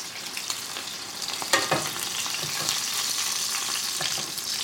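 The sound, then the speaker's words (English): Cutlets frying in oil in a pan as the pan is swirled so the oil washes over the top: a steady, dense crackling sizzle throughout, with a brief sharper burst of spatter partway through. “it's gonna be maybe a minute or 45 seconds on the other side, depending on how thin or thick your cutlet is. Swirling the pan, letting the oil cascade over the top, same thing.”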